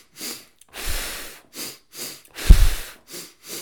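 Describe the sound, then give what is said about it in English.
Cyclic hyperventilation breathing: a person takes a rapid series of about seven forceful, noisy breaths in and out, each a loud airy burst separated by brief silences, with no speech. “And then cyclic hyperventilation with retention is the third version. And this is where you go,”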